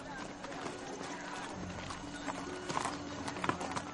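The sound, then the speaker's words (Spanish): Horse hooves clip-clopping as a woman rides out in a medieval setting: a run of faint, irregular hoof beats over a busy, noisy background. “Ella monta en su caballo”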